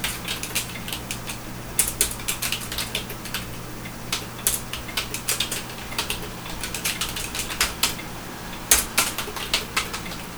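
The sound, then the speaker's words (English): Typing on a keyboard: many irregular, sharp key clicks come in quick bursts and short pauses, over a low steady hum, with no talking. “I know, you guys love listening to me type.”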